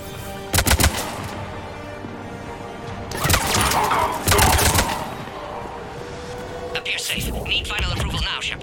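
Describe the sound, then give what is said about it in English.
Video game gunfire crackles in several short, loud bursts of rapid shots, separated by quieter stretches of low background hum. “Taking fire. From where?”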